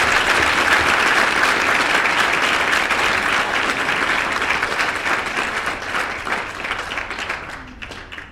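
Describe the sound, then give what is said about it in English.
Sustained audience applause in a room for a Commonwealth Games athlete: a dense, steady wash of many hands clapping that gradually thins and fades over the final couple of seconds. “can we give Jess Stenson a massive round of applause?”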